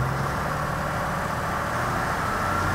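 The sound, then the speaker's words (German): A tractor engine runs at full throttle with the PTO engaged, driving a vibrating implement; the engine was fully rebuilt with new cylinder liners and pistons and runs at about 1600 rpm. A dense, steady roar continues without a break. “Der Schlepper fährt gleich mit Vollgas und das Gerät macht auch noch seine Schwingung. Und dann wird das so ein bisschen ungemütlich. Machen wir Zapfwelle an.”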